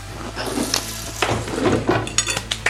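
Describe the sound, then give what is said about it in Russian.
Cherry tomatoes go into a cooking pan in a run of short knocks and clatters that grow sharper toward the end, over a faint steady sizzle, with no talking. “Так, я быстренько... 5 минут. Добавлю сюда черри.”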